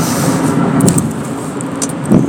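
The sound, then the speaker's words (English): Steady road and engine noise inside a moving car, a continuous loud rumbling hiss with a few brief faint ticks and rattles riding above it and no voices. “sorry, I'm driving while doing this, which probably isn't, you know, the smartest thing to do, but that's what I'm doing here.”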